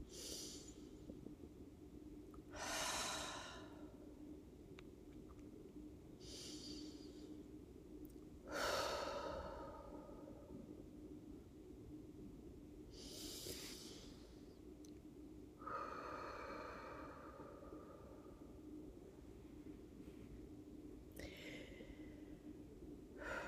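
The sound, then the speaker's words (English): Slow, deep breathing for a relaxation exercise: a few long, airy inhales and exhales rise and fade one after another, soft and unhurried, with no talking. “So let's take three breaths.”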